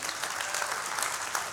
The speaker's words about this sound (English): Some of you may not know, you're always like, why do we always clap for Cumberland County Jail?